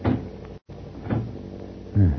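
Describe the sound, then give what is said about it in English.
A door swings shut and is locked: a few dull wooden thuds and clacks spread across the moment, with the heaviest bump at the end, heard alone without talk. “I would feel safer if I locked myself behind this door.”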